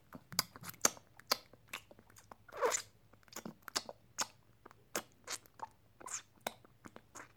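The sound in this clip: Close chewing of food, made up of many faint, irregular crunches and sharp clicks spaced through the quiet, with no voices.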